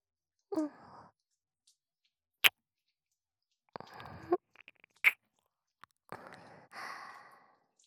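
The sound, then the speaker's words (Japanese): Soft, wet kissing and lip smacks close to the ear: a few short moist bursts and sharp clicks, quiet and separated by silence. “あなたのお耳にキスをさせていただきます”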